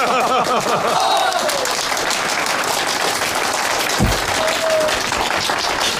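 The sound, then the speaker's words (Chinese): A crowd applauds at a meeting: dense, steady clapping from many hands throughout, with a voice briefly audible over it near the start and a low thump midway. “鼓掌！”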